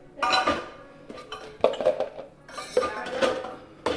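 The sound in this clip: Dishes and cutlery clatter and clink as breakfast remains of syrup, marshmallow fluff and bacon are cleared up in a kitchen, in several irregular bursts of scraping, knocking and ringing metal on crockery.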